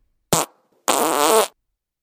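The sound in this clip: Fart noises: a short blast followed, after a brief gap, by a longer, rougher, wavering one. Both are loud and stand alone with no talk.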